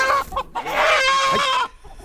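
Chicken clucking from a hen wearing a leg band with a step tracker, a few short clucks followed by a longer run of throaty, rising-and-falling clucking calls of moderate loudness, then a quieter trailing cluck.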